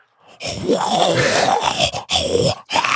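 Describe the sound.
A human voice imitates a pug's snorting grunt: a rough, raspy, breathy rasp in one long stretch, then two shorter bursts, with no other sounds.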